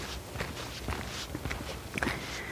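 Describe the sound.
Slow footsteps of a person walking along on a leisurely hike, a few soft, unhurried steps, faint and alone with no talking.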